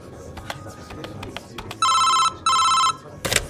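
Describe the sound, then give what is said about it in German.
A telephone rings as a call comes in to the police: two long, loud bursts of bright electric ringing separated by a short gap, after a few soft clicks and knocks. “Ein Anruf geht bei der Polizei ein.”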